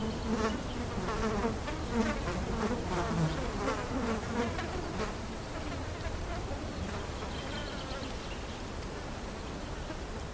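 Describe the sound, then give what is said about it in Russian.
Flies buzz over a boy's body, a faint, continuous droning hum with a slightly wavering pitch that goes on throughout without any talk. “Мухи летают над телом второго мальчика.”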